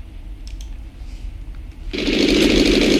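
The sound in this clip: An aircraft engine drones faintly, then surges into a loud, steady roar about two-thirds through as the throttles are adjusted during a landing approach with flaps lowered.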